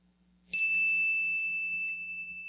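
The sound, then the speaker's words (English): A single chime struck to open a three-minute centering prayer, its bright, high ringing tone starting sharply and sustaining steadily with only a slight fade to the end. “And I will start it with a chime that sounds like this.”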